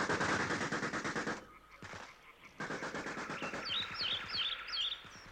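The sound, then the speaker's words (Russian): Machine-gun fire from German soldiers on a bridge in wartime crackles in long, rapid bursts. After a brief lull broken by a lone shot, the fire resumes steadily, and high bird-like chirps appear over the later shots. “а гитлеровцы на мосту все не прекращали огонь, панически отстреливаясь от собственного страха.”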